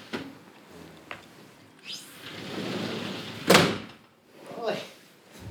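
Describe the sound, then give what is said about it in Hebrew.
A window is pulled shut. A rising sweep of sliding noise ends in one sharp, loud thud, with a few softer bumps before and after over a low background rumble. “אתה סוגר את החלון. כן, סוגר, מה אכפת לך?”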